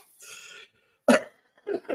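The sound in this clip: Coughing from someone at the tail end of a chest infection: a breathy rasp, then one sharp, loud cough followed by two shorter, rougher coughs close together.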